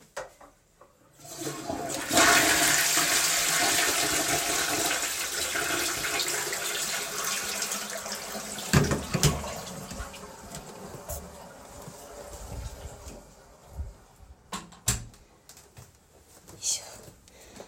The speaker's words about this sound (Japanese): ちょっとトイレ流したいと思います。ちょっと音が大きくなっちゃうかもしれないんですけど、ちょっと音量注意で。